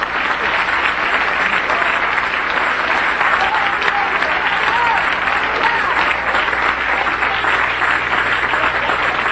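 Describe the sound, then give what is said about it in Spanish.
A church audience applauding, dense sustained clapping from a large crowd that stays loud and steady throughout, with faint cheering voices mixed in. “Denle un aplauso al cielo.”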